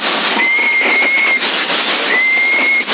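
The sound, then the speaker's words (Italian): Someone whistling over CB radio on the 27 MHz citizens band: two long, steady whistled tones, the first longer than the second, through a narrow, hissy, noise-filled radio channel. “Chi è che fischia avanti”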